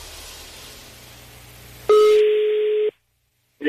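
A telephone call ringing: a low background murmur, then one steady electronic ring tone of about a second, a brief silence, and the start of another tone.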